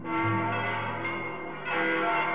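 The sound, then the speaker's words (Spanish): Church bells ring on Christmas night in a dense, sustained peal of overlapping metallic tones. The sound holds steady, dips briefly and swells again near the end, with no voices. “La noche de Navidad, cuando todas las familias estaban reunidas en sus casas, las campanas de la iglesia empezaron a sonar. Tocaban y tocaban como si hubiera una celebración especial.”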